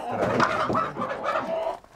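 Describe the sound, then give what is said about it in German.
Panicked laying hens and a rooster cluck and squawk in a dense, agitated flurry that runs almost without pause before quickly fading at the end. “4 Legehühner und 1 Hahn müssen mit.”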